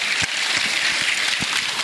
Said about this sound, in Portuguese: Até pedir uma salva de palmas pro Tiquinho.